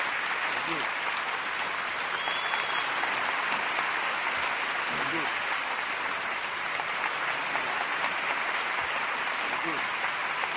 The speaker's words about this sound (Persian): به احترام و حرمت همه هنرمندان، همه هنرمندانی که نیستن اما آثارشون یادگاری مونده، از سر جاتون بلند شید و 10 ثانیه فقط دست بزنید همه با هم لطفا.